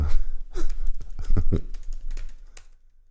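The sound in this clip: Typing on a computer keyboard: a quick, irregular run of many key clicks of varying loudness, heard alone, thinning out and stopping toward the end.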